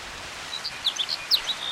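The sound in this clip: Sparrow song: faint, high, quick chirps and short trills scattered across a steady hiss, rising to a few brighter notes near the end, with no voices.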